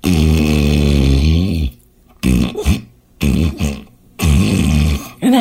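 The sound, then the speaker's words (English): A voice imitates a partner's snoring in bed with a few rough, growling, throaty snorts, the first long and drawn out and the later ones shorter, separated by brief pauses. “my sweetheart is snoring next to me. He's like,”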